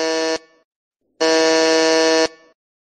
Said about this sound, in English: The buzzer is to reset the song, guys.